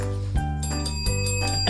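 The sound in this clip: A small bell rings twice, each strike leaving a clear, sustained metallic tone over a low steady hum.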